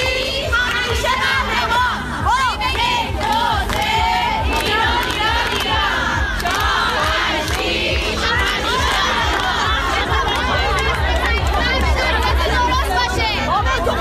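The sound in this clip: A crowd chants slogans: many voices shout together loudly and continuously, with rhythmic cries and chatter layered throughout and no breaks.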